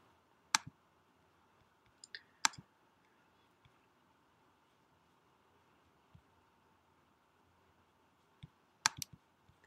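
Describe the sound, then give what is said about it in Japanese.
Computer mouse clicks on a button while setting up an ad account, a few crisp, sharp clicks separated by quiet stretches, with a quick cluster of clicks near the end. “通貨が日本円になっていることを確認いただきましたら、広告アカウント作成をクリックしてください。”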